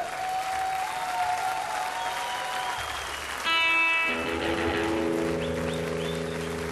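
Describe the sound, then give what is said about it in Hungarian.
Audience applause for a performing trio: a dense, steady patter of clapping hands that swells a little louder partway through, with sustained tonal notes joining in the second half. “Hölgyeim és uraim, jöhet a biztató tapsa Mr. Gang Trio-nak, kedves trióknak, a Mr. Gang Trio-nak.”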